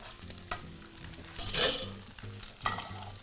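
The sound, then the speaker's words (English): French toast (pan perdu) frying in a pan gives a steady, low sizzle, broken by a few louder scraping bursts as it is stirred or moved, with no one talking. “So now that our pan perdu is cooking and our peaches are roasting”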